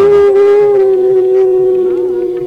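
A recorded, howl-like sung note from a former singer, held long and steady at one pitch with rich overtones. It is loud and alone, wavering slightly near the end.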